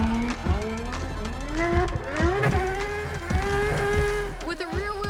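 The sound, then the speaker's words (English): A McLaren car drifts on a race track, its engine revving loudly in repeated rising pitch sweeps as the throttle is worked, with a continuous gritty tire-and-exhaust roar underneath. “this McLaren is a master at sliding with complete control”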